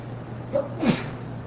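A single brief sneeze, a sharp nasal burst followed by a short, breathy trailing release, heard alone over a quiet, steady hum.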